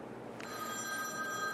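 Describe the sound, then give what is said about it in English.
An iPhone rings during a tafsir class with bright, steady electronic tones that start abruptly and hold evenly, fairly faint over a low background hum. “It's an iPhone. You see, the iPhone is such a disobedient phone. Even during the class, it acts up.”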